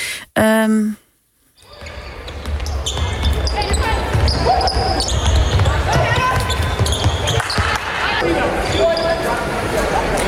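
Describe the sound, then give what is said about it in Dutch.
A ball bounces repeatedly during sports in a gymnasium, with many sharp thuds over busy background noise. A brief tonal sound comes first, followed by a short silence. “Dus gesport in een gymzaal. Denk op een school.”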